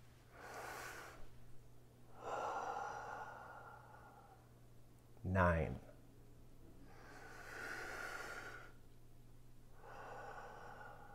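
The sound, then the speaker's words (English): Slow, deep breaths drawn and released during a stress-calming exercise, several long airy whooshes with a sharp sniff in the middle, over a faint steady hum. “in between each one of these numbers, take a big deep breath”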